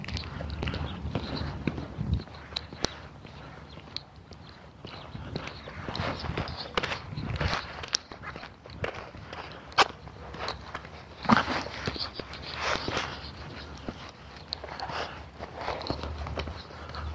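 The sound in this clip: Footsteps of a person walking: many steady, fairly faint footfalls in an even rhythm, with a soft rustling background throughout.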